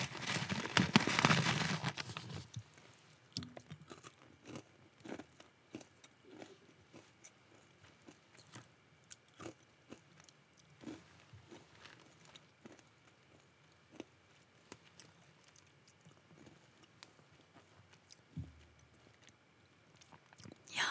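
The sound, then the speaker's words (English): A person eating a crunchy homemade snack topping straight from the bag, with many faint, scattered crunches and chewing clicks after a louder burst at the start. “You can eat it right out of the bag or top it on top of your favorite creamy delight. I'm gonna eat a few more.”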